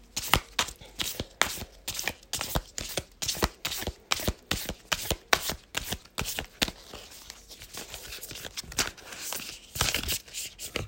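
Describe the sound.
Shuffling a deck of oracle cards: many quick, crisp, papery strokes in a steady rhythm, settling into a softer rustle toward the end, with no voices.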